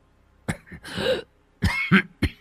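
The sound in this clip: A man coughing: several harsh, hacking coughs in uneven bursts, some short and sharp and one more drawn out, with quiet gaps between them.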